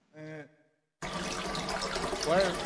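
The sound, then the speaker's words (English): A flushed bathroom toilet overflowing, its water rushing over the top: a brief voice comes first, then a short silence, then a loud, steady rush of water that swells slightly toward the end. “You said to flush it? Hang on. No, don't. Yeah, flush it. And now the water comes over the top and onto the...”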